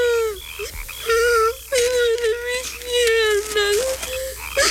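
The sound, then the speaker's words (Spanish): A young boy, Prince Mephibosheth, crying in pain after both his legs were broken, with repeated wailing sobs on a steady mid-pitched, slightly croaky tone broken by short gasps. “Por favor, no llores, príncipe Mefiboset. Los príncipes no lloran.”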